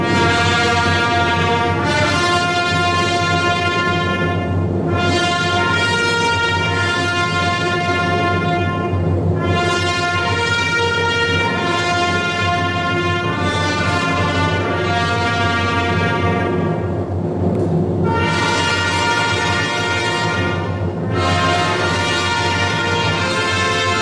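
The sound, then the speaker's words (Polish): Pauline monks play a trumpet fanfare from the tower of the Jasna Góra monastery. Loud, sustained brass chords ring out in several long blocks separated by brief pauses. “otworzą cały koncert fanfary z Wieży Jasnogórskiej, zagrane przez ojców Paulinów, więc tym razem nie z kaplicy, tylko będziemy obserwować, jak ojcowie Paulini grają na trąbkach z Wieży Jasnogórskiej”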